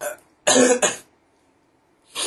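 Coughing from someone whose spicy soup went down the windpipe: a few harsh, loud bursts close together, a short silence, then another cough starting.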